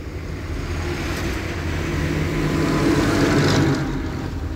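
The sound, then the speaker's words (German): A tanker truck engine rumbles steadily from behind as the truck tries to overtake, a low continuous drone that swells slightly before easing off. “Dieser Tankwagen ist wieder hinter uns. Oh, verflucht, der will überholen.”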